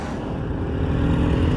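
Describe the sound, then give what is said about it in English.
Motorbikes in a charity convoy riding along an outback road in Central Australia, a low, throaty engine drone that swells slightly louder toward the end of the brief passage. “we're joining a motorbike convoy that's hitting the road for a charity ride in Central Australia.”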